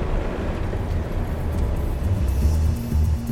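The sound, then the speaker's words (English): Steady low rumble of a car driving, a continuous engine and road drone with no distinct events, moderately loud and unchanging throughout. “But first, let's take a little drive.”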